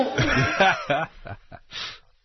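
A goat bleats in a wavering, quavering call, followed by a few shorter, broken bleats that trail off.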